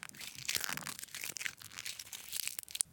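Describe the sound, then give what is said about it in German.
Sand crunching and seashells breaking underfoot on a beach as someone walks slowly, a dense run of many irregular, gritty crackles and small snaps with no voices. “Der Sand knirschte leise und sie spürte, wie die Muscheln unter ihren Füßen zerbrachen.”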